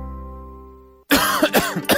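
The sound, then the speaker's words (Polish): A person coughing in a cough-syrup advertisement: a sustained steady tone cuts off, then a few harsh, throaty coughs follow in quick, uneven succession, loud and alone. “Zwykle syropy są tylko na kaszel suchy albo tylko na mokry.”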